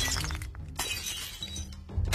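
A ceramic bowl smashes over someone's head in a brawl at a drinking party, a sharp, fairly faint shattering crash with brittle breaking fragments.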